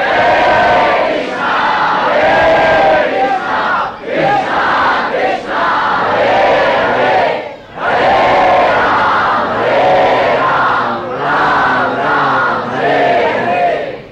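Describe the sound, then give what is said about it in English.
A crowd loudly chants Krishna's name in unison. The chanting is a dense, continuous, melodic wall of voices that breaks only briefly a couple of times. “And we spread the whole, we inundate the whole universe with the loud chanting of Krishna's name.”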